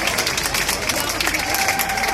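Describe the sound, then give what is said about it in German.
An audience applauds: dense, steady clapping runs at even strength from start to finish. “Applaus.”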